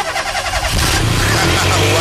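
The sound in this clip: A car engine cranks with a rapid pulsing churn, then catches and settles into a loud, steady running roar for the rest of the moment.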